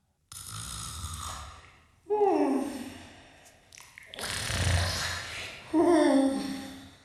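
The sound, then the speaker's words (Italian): Loud, theatrical snoring from a sleeping woman: four long, rasping snores with a nasal, partly voiced edge, each one swelling and then fading, with no talk over them. “Ma sta russando! Ma senti, ma sembra una fanfara!”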